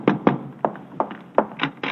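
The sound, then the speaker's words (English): Knocking on a door: a series of about seven dull raps in an uneven rhythm, moderately loud, over a low steady hum. “there's somebody at the door.”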